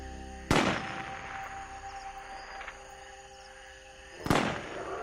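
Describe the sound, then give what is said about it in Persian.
Two sharp gunshots from illegal hunters in the area, nearly four seconds apart. Each is a sudden crack with a short decaying tail over a quiet, steady background hum. “صدای تیر.”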